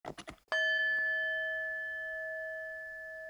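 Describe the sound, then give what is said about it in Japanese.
A Buddhist kin singing bowl is struck once after a few brief sounds, giving a bright metallic ring with clear steady overtones and a long, slow decay. “金あるよ金鳴らしてオリジナルサウンドと綺麗に響くと思います”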